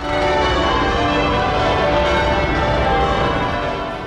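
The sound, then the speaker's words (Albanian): Church bells peal at Westminster Abbey to mark a couple's 70th wedding anniversary, a loud, dense and continuous wash of overlapping ringing tones that carries on without pause throughout. “Ngjarje publike për këtë ditë nuk ka pasur, post që në Westminster Abbey, kishën ku është martuar çifti, kanë rënë këmbanat.”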